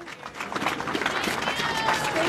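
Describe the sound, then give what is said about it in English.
Supporters cheer and clap outside the Ronald Reagan building, the shuttered aid-agency headquarters, as a worker walks out carrying his belongings. Scattered clapping and crowd noise run throughout, with voices mixed in. “Supporters cheer as a man walks out of the Ronald Reagan building with a bag and a large picture from South Sudan.”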